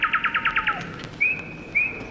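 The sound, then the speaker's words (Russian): A nightingale sings a quick run of about seven sharp repeated chirps, then two long, high, clear whistled notes, each standing alone against a quiet background. “Ах, как чудно поет соловей.”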